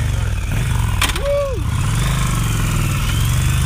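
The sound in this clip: A motorcycle engine runs at a steady idle, a constant low rumbling drone throughout, with a sharp click and a short whistle-like tone partway through.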